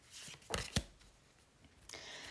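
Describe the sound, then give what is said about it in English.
Tarot cards being pulled from a Muse Tarot deck: two quick, crisp card snaps close together, then a softer papery rustle near the end, all fairly quiet with no talk. “Okay, I just pulled some cards from the Muse Tarot.”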